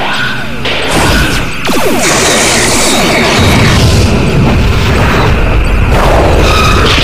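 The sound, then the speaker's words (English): Sci-fi starship torpedo and phaser fire in a space battle: a loud, unbroken barrage of booming explosions, crashes and sweeping whooshes layered densely together from start to finish. “Fire all batteries. Torpedoes fire. Torpedoes away. Phasers fire.”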